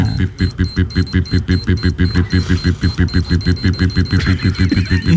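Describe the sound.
A time bomb alarm goes off as a game sound effect: rapid, evenly pulsing electronic beeps with a bright ringing tone, loud and steady throughout without a break.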